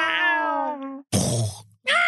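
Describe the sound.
A person imitates a cat's meow with a drawn-out, whiny voiced call, then a rough, breathy grunt-like burst, then the start of another meow-like cry.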